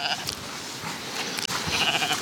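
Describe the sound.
Bleating of a weak newborn lamb during lambing on a farm: a few short, wavering, nasal bleats over a constant rough background, with faint human talk mixed in.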